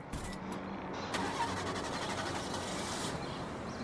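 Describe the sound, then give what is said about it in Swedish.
A car engine starting for a morning drive: it cranks, catches with a louder surge, then settles into a steady, even running hum. “Klockan sju på morgonen tar han bilen in till Kristianstad där han jobbar som läkare på vårdcentralen.”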